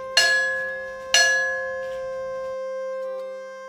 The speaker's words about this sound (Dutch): Misschien moet je even bellen